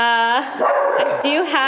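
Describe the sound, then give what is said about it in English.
Dogs barking and whining loudly: drawn-out tonal whines open and close the moment, with rougher, noisier bark-like bursts in between. “I'm sorry about the dogs.”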